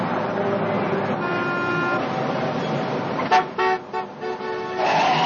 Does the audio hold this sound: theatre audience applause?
no

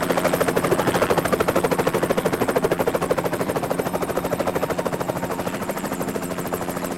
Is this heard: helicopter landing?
yes

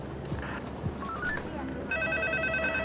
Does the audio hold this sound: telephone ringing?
yes

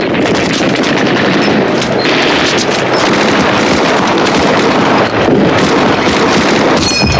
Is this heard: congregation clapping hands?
no

